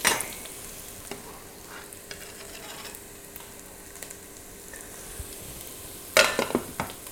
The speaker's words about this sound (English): Just going to let those cook for a second. I'm going to check my lentils here. Grab a couple out with a spoon.